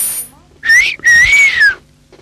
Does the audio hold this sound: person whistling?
yes